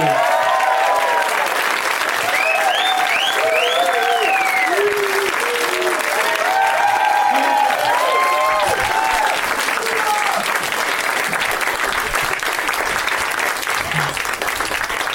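Audience applause welcoming guests onto the stage at a live comedy show at the UCB theatre: loud, steady clapping throughout, with whoops and cheers rising over it in the first half.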